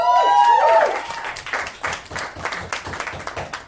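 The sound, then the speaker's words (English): An audience at an improvisational comedy show breaks into applause, opening with a loud burst that settles into scattered, uneven clapping. “So anyway, welcome to Friendly Town, you guys. Give it up for yourselves.”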